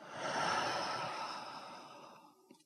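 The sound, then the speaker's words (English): One long, slow breath in and out, let go as a soft airy sigh during a guided relaxation exercise. It swells and then fades gradually, quiet and alone. “Let's do it one more time. Breathe in and out.”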